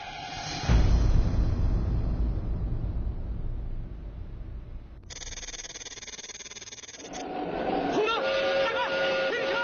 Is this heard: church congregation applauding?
no

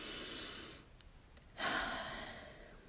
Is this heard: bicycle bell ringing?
no

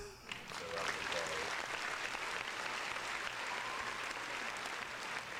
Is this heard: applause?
yes

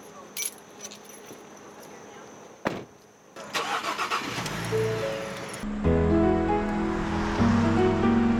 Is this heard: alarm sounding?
no

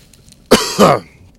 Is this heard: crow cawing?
no

